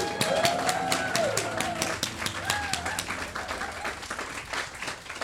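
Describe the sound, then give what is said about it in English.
Audience applause welcomes a Labour MP and a political reporter onto the stage at a live event, with dense, steady clapping throughout at an even loudness that tapers slightly near the end. “If you could all give a very big round of applause and please welcome to the stage Labour MP Bel Ribeiro Addy and political reporter Nadine Batchelor-Hunt.”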